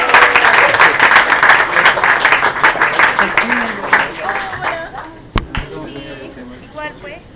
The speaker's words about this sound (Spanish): Vienen los payadores. ¡Aplausos a los payadores!